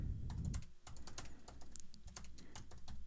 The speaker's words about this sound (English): In fact, I'm gonna double up on that email that I just sent him and type him back.